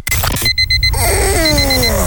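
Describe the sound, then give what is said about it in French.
An alarm clock rings with a burst of rapid, high electronic beeps, then fainter beeps return later. Loud, bright music with sweeping, falling tones plays underneath the alarm. “Tu croyais pouvoir repousser ton réveil encore 5 minutes?”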